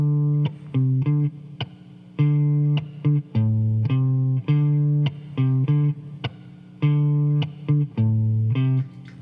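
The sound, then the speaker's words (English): Bass guitar playing a repeated riff, a short pattern of low plucked notes that loops several times in a steady rhythm. “During the guitar solo section, you hear the bass player playing a repeated figure that sounds like this.”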